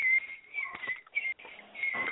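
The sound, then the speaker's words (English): A person whistling in the background: a faint, thin, high tone that holds and wavers slightly in pitch, with short breaks, running through the whole stretch. “Who's whistling in the background? That's fucking rude. Can you please stop it?”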